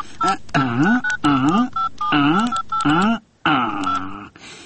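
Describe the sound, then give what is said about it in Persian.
Telephone dialing tones as someone calls a lawyer: loud, repeated bursts with short gaps between them and a longer pause near the end. “خوباش که من وکیل صاحب شیرک یک زنگ بزنم.”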